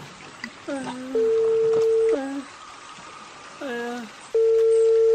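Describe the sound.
Telephone tones as a call is placed: two long, steady electronic tones, each lasting about a second, with voices talking in the gaps between them.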